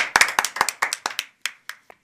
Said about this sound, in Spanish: Aplausos, ¿no? Sí, aplausos.